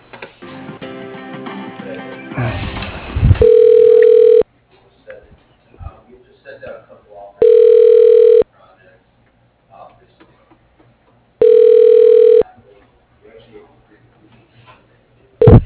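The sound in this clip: Telephone ringback on a call being transferred to voicemail: three steady, mid-pitched ring tones of about a second each, spaced roughly four seconds apart over a narrow phone line, with faint sounds between.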